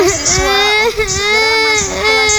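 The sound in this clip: A young child cries, a loud, sustained wail whose pitch wavers and dips in broken sobs, with brief breaks between cries.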